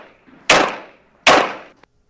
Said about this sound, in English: This is a 9mm gun. And Elif, go ahead and play the audio. Now, that's the gun itself. Play that one more time, Elif. This is the gun without the muzzle.